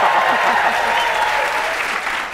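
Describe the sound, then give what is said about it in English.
Studio audience at a talk show applauding on cue, a loud, dense patter of many clapping hands that holds steady throughout and eases slightly near the end. “I'll prove it to you. Everybody applaud.”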